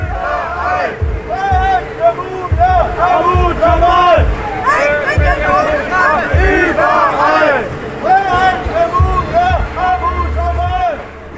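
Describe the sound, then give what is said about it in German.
Loud crowd at a Free Mumia demonstration outside the US Embassy by the Brandenburg Gate in Berlin, many voices shouting and chanting together in a dense, continuous roar with no pause. “Ja, die Stimmung war trotz des traurigen Anlasses sehr gut. Die Leute waren sehr laut, das könnt ihr hier im Hintergrund ja auch hören.”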